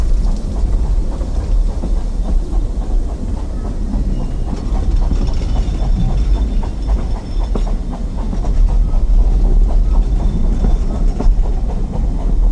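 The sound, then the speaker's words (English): A diesel multiple unit train runs on a heritage railway in the Forest of Dean: a steady, loud, low engine rumble with rhythmic wheel clatter running throughout, with no talk. “I belong to the DMU group in the Dean Forest Railway. My primary role is to drive the train.”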